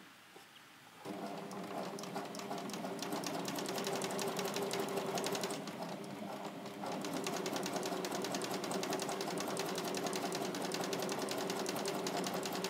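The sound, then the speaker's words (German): A sewing machine runs a straight stitch forward and back on slippery viscose fabric. A fast, steady whirring buzz starts after about a second, dips briefly midway, then carries on evenly to the end. “aus Angst, dass die Maschine den flutschigen Viskosestoff äh, frisst, fange ich mit einem Gradstich an, nähe vor und zurück und dann wechsle ich auf den Dreifach-Gradstich.”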